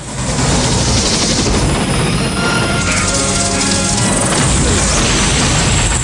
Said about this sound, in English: Zeissen arcs round again and Rambo sets the tank's gun to fire.